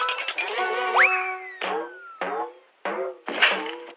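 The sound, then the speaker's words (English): Rosie the robot shoots a basketball hook shot with synthetic sound effects. Buzzy electronic chatter gives way to a quick rising sweep, and then four short, bright clanging bursts follow with gaps between them. “Oh, boy, can Rosie play basketball? Come on, Rosie, show me your hook shot. Okay, here it goes.”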